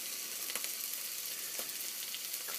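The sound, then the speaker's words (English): Onions sizzle in a cast iron pan while lunch is cooked, giving a faint, steady frying hiss scattered with a few soft crackles and pops. “In case you're wondering what that sound is, that's the sound of some onions in a cast iron pan. Making myself some lunch.”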